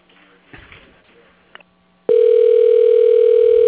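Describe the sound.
A telephone line tone plays while a call is transferred to voicemail. After about two seconds of faint line noise, a loud, steady tone begins and holds unbroken to the end.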